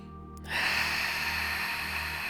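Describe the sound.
A long, steady breath drawn in, starting abruptly after a brief quiet moment and holding as a soft, even rush of air until the end, with no voice over it.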